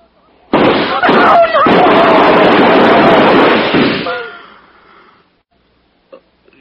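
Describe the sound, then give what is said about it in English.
Gunfire erupts in an armed standoff: a dense, loud burst of overlapping shots lasts about three and a half seconds, then tails off into quiet. “They shot at me.”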